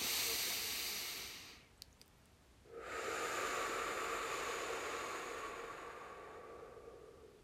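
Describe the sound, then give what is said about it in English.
A person does a full exhale out of the mouth, a soft, airy hiss that lasts several seconds. It comes after a brief pause that follows an earlier breath fading away, and the whole thing is quiet. “And that was a full exhale out of the mouth. One more time if you need it.”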